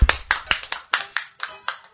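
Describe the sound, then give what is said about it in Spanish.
Studio audience clapping comes as a sparse run of distinct, sharp claps, spaced almost evenly and loud, rather than a dense round of applause. “Y a muchos aplausos también, no se pasen.”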